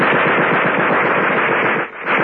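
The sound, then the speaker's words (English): Rapid machine gun fire rattles out in a sustained, loud burst of closely spaced shots near a house on a wooded drive, breaking off briefly near the end before the firing resumes. “There was a sudden burst of machine gun fire.”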